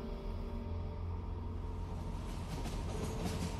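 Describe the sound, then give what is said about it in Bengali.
A Rajdhani Express passenger train runs on rails with a steady, even low rumble and a faint tonal hum throughout. “রাজধানী express Asansol ছাড়িয়েছে”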